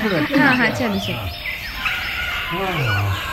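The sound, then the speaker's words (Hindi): Birds chirping in a park in the evening: a busy, continuous mix of short, fairly loud calls, some sweeping upward in pitch, running through the whole stretch. “वो चहचहाते पक्षी”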